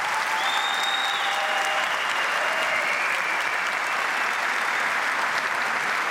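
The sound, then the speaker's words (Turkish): Sustained crowd applause at a ceremony, dense and loud clapping that holds steady through the whole stretch without a break. “şu anda kuvvetli bir alkış rica ediyoruz.”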